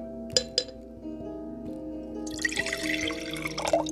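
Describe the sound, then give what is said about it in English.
Liquid poured into a glass: two light glassy clinks first, then a steady splashing pour through the last second and a half. “See, pouring is a sacrifice. Pouring takes energy. Let me do it.”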